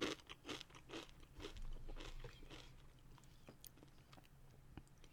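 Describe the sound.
Crunching and chewing on a chip with Trader Joe's salsa: faint, irregular crisp crackles and bites spread over a few seconds, with no voices.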